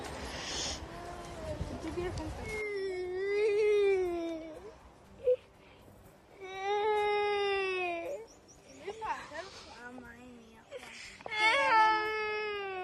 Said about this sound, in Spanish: no llore, bebé, no llore.